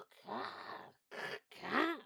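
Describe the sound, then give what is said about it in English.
A person vocally imitates an odd bird call heard around five in the morning. It comes as three rough, throaty voiced bursts, and the last one sweeps up and then down in pitch. “There's one I call Colin. He comes in about 5 o'clock in the morning. Like,”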